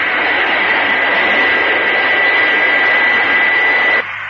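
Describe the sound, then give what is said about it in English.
Jet engines of a supersonic airliner climbing steeply roar in a loud, steady rush with a high whine, then the sound drops abruptly just before the end. “The powerful jet engines lift the Fireflash airliner effortlessly into the sky.”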